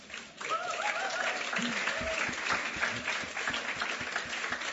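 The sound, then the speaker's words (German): Applause from a church audience after an evening praise-and-worship set: many hands clap in a dense, continuous patter that swells quickly after a brief quieter start and holds steady, moderately loud, to the end. “Einen Applaus habt ihr euch schon verdient jetzt.”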